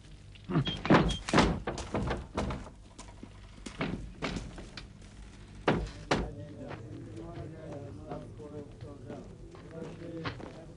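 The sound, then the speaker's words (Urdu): A door being closed gently, giving a few dull, soft thunks alongside people talking. “خیال رکھنا دروازے کو آہستہ بند کرنا، سمجھے؟ اس کی آواز سے مجھے اذیت ہوتی ہے۔”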